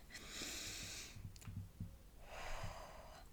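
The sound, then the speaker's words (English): A deep breath drawn in and then let out, heard as two broad, airy hissing sounds separated by a short quiet gap. Both are soft and unhurried, and no voice accompanies them. “I want you to take a deep breath with me.”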